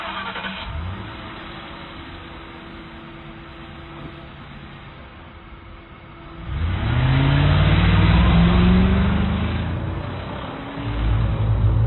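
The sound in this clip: A car engine idles low and steady, then revs loudly with rising pitch as the car pulls away, easing briefly before the engine climbs again near the end.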